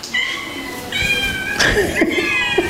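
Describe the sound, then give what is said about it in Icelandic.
A cat meows at a birthday party held at a cat shelter in Reykjavík, giving a few drawn-out, plaintive meows over a noisy background. “Það var margt manninn og köttinn í afmælisveislunni sem haldinn var í húsnæði Kattholts í Stangarhyl í Reykjavík.”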